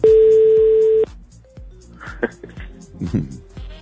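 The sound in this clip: A steady telephone tone lasting about a second, then a brief beep as a number is dialed for a call, followed by people talking.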